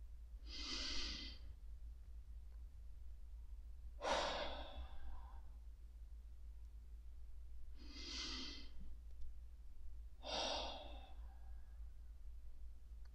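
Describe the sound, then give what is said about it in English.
Deep breaths during a guided meditation, in through the nose and out through the mouth: four soft, slow, airy breath sounds spaced several seconds apart, each swelling and fading, over a faint steady low hum. “land by taking 3 deep breaths. In through the nose, out through the mouth.”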